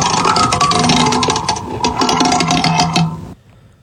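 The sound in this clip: Spinning prize wheel clattering: many rapid ticks in a dense, loud run that carries on almost to the end, then stops abruptly. No one speaks.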